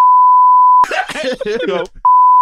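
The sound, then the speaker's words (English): A steady, loud, mid-pitched censor beep tone plays, breaks off for a burst of a voice, then returns abruptly at the end. “and the beep comes out”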